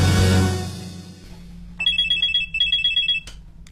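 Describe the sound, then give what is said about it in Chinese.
A telephone rings with an electronic ringtone of rapid pulsing trills in two bursts. A fading swell of other sound comes before it, and the ringing stops abruptly. “窃贼又来电话了”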